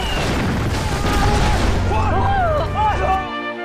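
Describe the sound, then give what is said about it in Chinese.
Artillery shelling in a war drama, heavy booms forming a dense continuous rumble, with shouting voices rising above it near the end. “炮击！”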